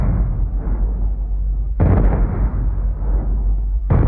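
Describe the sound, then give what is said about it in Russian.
Deep cannon booms of a ceremonial twenty-one gun salute fired by a naval squadron over Saint Petersburg: a few heavy blasts, each followed by a long rolling low rumble, with no voices. “Двадцать один выстрел над Петербургом в честь принца Хазрева Мирзы, царевича персидского.”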